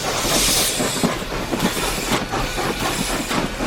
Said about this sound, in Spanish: Y en fin, vino el tren demasiado pronto para lo que nosotros deseábamos estar allí.